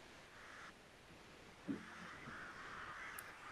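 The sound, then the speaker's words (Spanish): A large black crow missing one eye gives a single harsh caw, faint against a low steady hiss. “haciéndose corpóreo a partir de los zarcillos de la niebla, aparece un gran cuervo negro, un cuervo al que le falta un ojo.”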